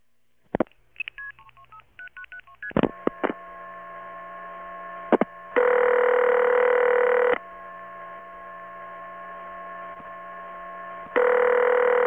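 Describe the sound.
DTMF keypad tones dialing into a VoIP conference call: a quick run of short beeps at varying pitches, then a steady electronic tone broken by two louder sustained ringing bursts.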